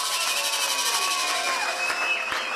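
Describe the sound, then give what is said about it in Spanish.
A crowd applauds and cheers for a group of young performers, a dense, continuous wash of clapping and raised voices at an even level throughout. “Los aplausos bien fuerte para los pibes, ¿eh?”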